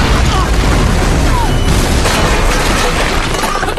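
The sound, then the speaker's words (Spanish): Artillery shell explosion in battle: a loud, continuous booming roar with dense crackling debris noise that holds steady throughout. “¿Dónde está esa maldita artillería? ¡Ya debió haber llegado!”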